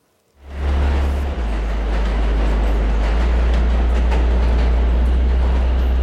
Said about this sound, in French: Le bruit des rames qui circulaient à toute allure sous les tunnels